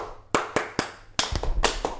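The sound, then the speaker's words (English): Classroom clapping rhythm of the kind a teacher uses: crisp hand claps, a few evenly spaced at first, then a quicker run of claps in a patterned beat. “what we're doing here, audience at home, is when the teacher in the classroom claps this.”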